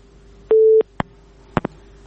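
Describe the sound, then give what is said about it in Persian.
A phone busy tone after a call disconnects sounds as one short, steady mid-pitched beep, followed by three brief clicks on the line over a faint hum. “تماس شون فکر میکنم قطع شد.”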